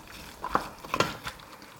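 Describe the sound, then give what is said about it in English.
Spoon stirring chopped celery, pepper and spring onions in a bowl, giving a few soft clicks and scrapes against the bowl over a faint, quiet background. “I'm going to add the celery and the pepper, as well as the spring onions. A lot of green veg in there. Give that a mix.”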